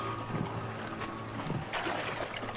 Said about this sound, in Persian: صدای قایق موتوری نزدیک میشه.